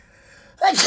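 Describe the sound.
A single loud sneeze bursts out after a near-silent stretch, sharp at the start, then trailing off in a breathy, hissing spray.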